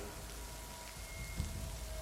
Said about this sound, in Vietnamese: mưa rơi vô tội vạ, đập vào mái tôn vang lên những âm thanh chát chúa như muốn chọc thủng màng nhĩ